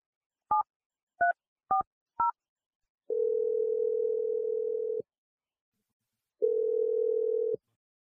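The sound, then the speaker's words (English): A telephone number is dialed as four short keypad tones in quick succession. Two long, steady, low tones follow, separated by a pause, all quiet and without talk. “I'm going to dial the number right now, let you call David”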